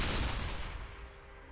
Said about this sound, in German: Es gibt noch den Sniper, der macht, das ist glaube ich eine von den Waffen, die am meisten Schaden macht. Aber die macht halt, die muss halt genau den Tank hitten, sonst bringt die Waffe nichts